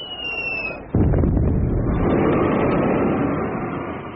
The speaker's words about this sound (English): a Russian revolutionary throws a bomb at evil Tsar Alexander II.